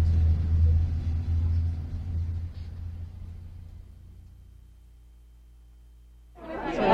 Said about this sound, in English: This bus is headed back to the visitor center.